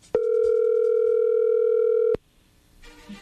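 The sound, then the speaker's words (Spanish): A telephone line sounds while a call is dialed: one loud, steady electronic tone is held for about two seconds, then cuts off abruptly, leaving faint line hiss. “ya no haga ruido, ahí se está marcando, ¿ok?”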